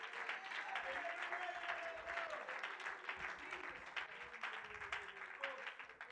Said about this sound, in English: would you clap your hands to the Lord in this place?